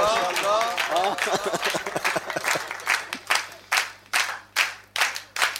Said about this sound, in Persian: به عشق امیرالمومنین کفه رو بزنید دو دقیقه